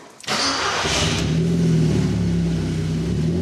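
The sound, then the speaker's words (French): An Audi TT engine starts up and revs, a sharp starter catch followed by a steady, loud mid-pitched roar with a rising harmonic whine as the revs climb and hold, with no talking. “Alors voyons ce que développe l'Audi TT de notre ami.”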